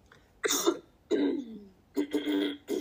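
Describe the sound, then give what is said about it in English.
A person clears their throat in several harsh, raspy bursts separated by short pauses. The sounds are fairly quiet, and no one talks. “My throat all cleared.”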